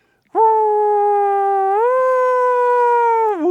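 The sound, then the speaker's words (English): A voice imitates an American police car siren from New Jersey and New York as a single sustained harmonic wail. It holds steady, rises slightly partway through, then dips briefly near the end. “I grew up in New Jersey and in New York, where police cars sound like this.”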